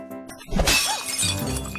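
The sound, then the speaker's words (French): A glass vase is thrown onto a meadow and shatters. A single sharp, bright crash is followed by a brief tinkling trail of breaking glass fragments. “il y a un bruit de verre, ça c'est sûr. Est-ce que ce serait pas une bonne bouteille de bière ? C'était un vase, mais je te la donne.”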